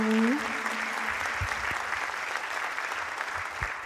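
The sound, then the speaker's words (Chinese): Steady applause from an audience, a continuous even patter of many hands at moderate loudness, with a brief voice at the very start before the clapping carries on alone. “收到掌声哦”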